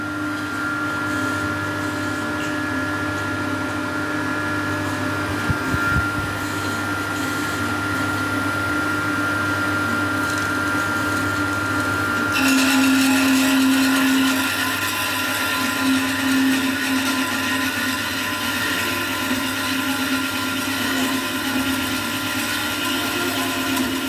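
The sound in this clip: An automatic saw cutting material in a workplace gives a loud, continuous mechanical whine and hum that holds steady, with a shift in tone about halfway through.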